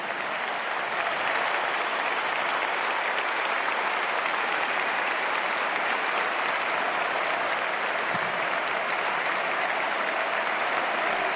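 Sustained applause from a stadium crowd paying tribute to Modric: a dense, even roar of clapping that holds at a steady loudness from start to finish, with no talk.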